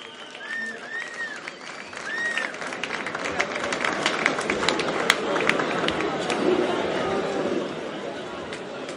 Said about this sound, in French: Allez, applaudissons.